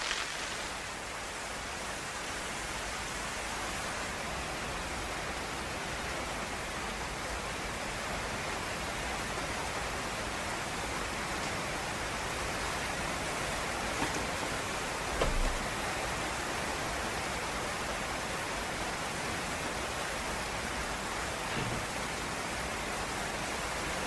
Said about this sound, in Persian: یه خورده صبر کنیم تا بارون بند بیاد؟